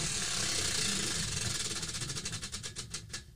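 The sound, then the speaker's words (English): A prize wheel spinning: a rapid stream of ticking clicks that gradually slows, the gaps between ticks widening toward the end as the wheel winds down. “So, all right, so let's spin it three times. Whatever it adds up to, it's yours. Let's go.”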